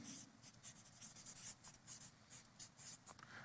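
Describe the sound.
Writing on a board during a sermon: a faint, steady run of many short scratchy strokes in an irregular rhythm, heard alone without speech.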